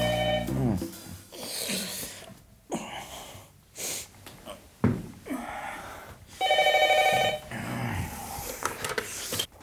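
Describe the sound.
A telephone rings insistently early in the morning in two bright, harmonic bursts, a short one at the start and a longer one later, with breathy, sniffing noises between them.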